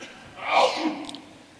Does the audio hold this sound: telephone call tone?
no